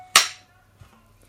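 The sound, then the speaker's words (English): A film clapperboard snaps shut once with a sharp, bright crack that decays quickly, leaving only a faint low hum and quiet afterwards. “It's our little bit of fun, the clapperboard.”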